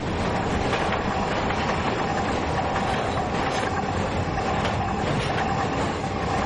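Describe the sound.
A train crosses a bridge over a motorway, producing a loud, continuous rumble and rattle of rolling cars that stays steady and unbroken from start to finish, with no voices.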